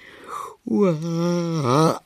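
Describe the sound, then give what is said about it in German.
A narrator's voice imitates the drawn-out yawn of a sleepy long-eared bat: a breathy intake followed by a brief pause, then a sustained, moaning, voiced yawn that wavers in pitch before trailing off. “Gähnt die Fledermaus, auch das Abendpfauenauge ist noch ganz verschlafen”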